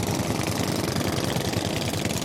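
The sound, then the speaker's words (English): Engines of small boats anchored on a reef are revved hard, making a dense, loud, continuous mechanical drone with a rapid pulsing rumble and no talk. “the men on board are revving their engines hard, filling the air with black smoke and churning the”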